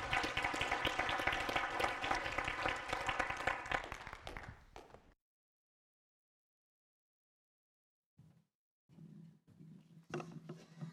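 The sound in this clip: A church audience applauds to welcome a speaker, a dense patter of clapping that fades out after about five seconds, followed by silence and then a few quieter sounds near the end.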